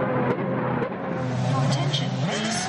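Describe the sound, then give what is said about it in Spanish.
Formula 1 race cars roar through a race ambience: a loud, continuous engine drone whose whining pitch shifts up and down throughout. “El ambiente de una carrera de Fórmula 1 engorda.”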